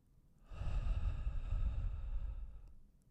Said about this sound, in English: take a minute, breathe in through your nose, hold, and then out through your mouth.